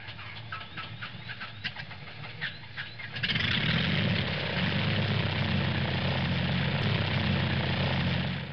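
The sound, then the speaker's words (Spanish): Engine of a small, early motor-powered airplane running on a makeshift fuel tank: a sputtering, ticking engine jumps at about three seconds into a steady, loud propeller drone that holds to the end. “Eso hizo, y el avión voló como por 10 segundos.”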